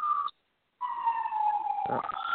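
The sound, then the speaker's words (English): An ambulance siren in the background, a faint, steady wailing tone that cuts out briefly, then returns and slowly drifts lower in pitch. “Who's got the ambulance in the background?”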